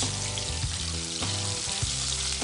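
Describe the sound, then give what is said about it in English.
Oysters sizzle and pop as they fry in a pan, a dense, steady crackle running the whole time with scattered sharper pops and no voices. “That popping, the oysters are cooking great.”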